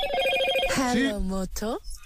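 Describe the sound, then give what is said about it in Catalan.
Motorola mobile phone ringtone: a quick run of bright electronic tones, followed by a voice over the closing tones. “Home, Motorola. Ah! És el to de trucada de Motorola.”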